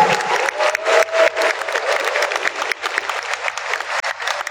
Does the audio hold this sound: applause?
yes